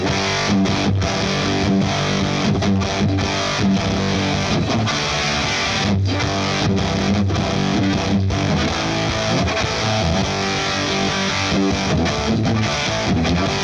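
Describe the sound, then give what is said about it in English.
Thick fuzzed electric guitar from a Les Paul Standard with Voodoo 59 pickups played through a Speebtone Jerk-U-Later fuzz pedal into a Marshall Plexi amp, a loud continuous wall of saturated chords broken by many brief rhythmic cuts. “Kick in the fuzz.”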